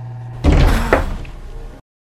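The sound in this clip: A heavy thunk as an elevator jolts to a stop, preceded by a steady low mechanical hum. The impact leaves a rattling, resonant rumble that fades over about a second before cutting off abruptly into silence.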